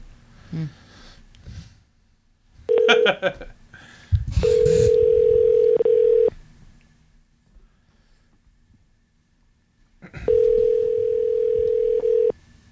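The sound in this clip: A phone calling back an unknown number plays ringback tones: a short tone, then two long steady beeps separated by a pause. Some faint rustling comes before them.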